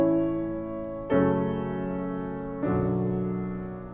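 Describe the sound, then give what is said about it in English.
A recurring chord progression from a choral oratorio plays as three sustained, richly layered chords. Each chord begins with a soft swell and then slowly fades, and the changes fall at roughly even intervals with no voices speaking. “Another recurring musical idea is a particular chord progression. It sounds like this.”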